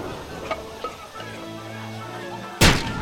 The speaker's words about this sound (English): All right, smoke grenades first. Just drop it into the mortar hole, if you please. Good. And now the concussion grenade.